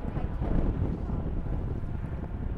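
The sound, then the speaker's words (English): Wind blowing outdoors, buffeting and rumbling against the microphone in a steady, dense roar with small gusty swells and no voices. “The wind feels so good though, even though it's evil.”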